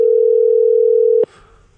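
A telephone dial tone while placing a call: one steady, low, continuous hum that holds for just over a second, then cuts off abruptly with a click, leaving only faint noise.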